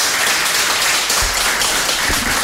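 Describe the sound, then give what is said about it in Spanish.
Applause from the audience at a presentation ceremony as a woman comes forward, a dense, steady patter of many hands clapping at even loudness, broken by a couple of soft low thumps. “Ahí viene la señora y el aplauso de los presentes, claro.”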